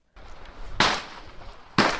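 Two sharp, loud cracks from a Rossi Rio Grande .30-30 lever-action rifle at a gun club west of Brisbane, each a sudden burst that decays quickly, spaced about a second apart.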